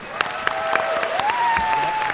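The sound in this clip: Applause from an audience welcoming James Randi: a short burst of scattered, crisp claps that continues steadily at moderate volume throughout.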